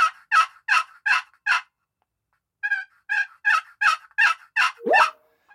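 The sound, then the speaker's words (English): Hen yelps imitated on the left side of a turkey call that is tuned slightly higher than the right side. About five crisp yelps come first, then a pause, then a longer run that ends on a note sliding downward in pitch. “It's a little bit higher than the right side. The left side's a little bit higher. I tuned it a little bit that way.”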